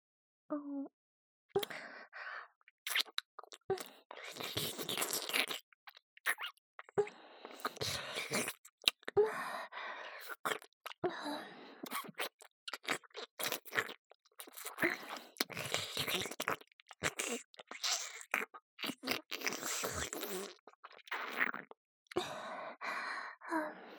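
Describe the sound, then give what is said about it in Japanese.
Close-up ASMR ear licking, starting at the right ear: many soft, wet mouth and tongue sounds with small smacks and breathy sighs, quiet and irregular, with no talk. “勇者様の大好きな耳なめ、いっぱいして差し上げますからね。まずは、右耳から。”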